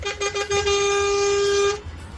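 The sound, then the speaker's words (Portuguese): A vehicle horn honked on the road gives a few quick toots, then one long steady blast of just over a second, loud and clear, before cutting off abruptly. “E para vocês que estão no trecho, uma buzinadinha aqui para vocês.”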